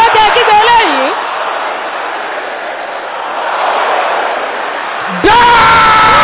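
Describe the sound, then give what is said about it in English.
A crowd at a religious gathering shouts together in a dense, sustained roar that rises and falls slightly, with a single voice speaking before and after it. “Can I hear you shouting now?”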